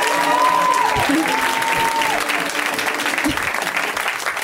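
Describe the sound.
An audience applauds a comedian as he is welcomed to the stage, a dense, continuous wash of clapping that stays loud and steady, thinning only slightly toward the end.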